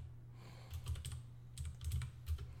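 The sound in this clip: Typing on a computer keyboard while searching Wikipedia: a few soft bursts of clicking keystrokes in an uneven rhythm, with no voices.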